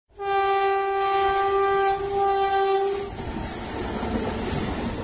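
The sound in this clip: A CRS special inspection train on a speed trial run from Sairang to Hortoki, set for 110, sounds one long, steady horn blast. The horn then gives way to the loud rumble and clatter of the moving train.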